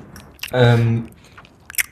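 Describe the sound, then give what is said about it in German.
Someone chewing while eating makes a few brief, crunchy bites, with a short hummed voice sound between them. “Ich gehe jetzt etwas essen. Du bist schon dran, so wie ich höre.”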